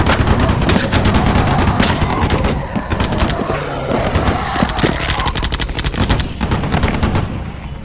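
Gunfire from several weapons firing together in rapid machine-gun bursts, dense and loud throughout, with a brief dip in intensity partway before the shooting resumes.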